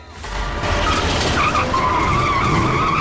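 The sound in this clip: An ambulance reversing through a hospital car park: a continuous loud roar of engine and skidding tyres with a high squeal rising over it, steady throughout.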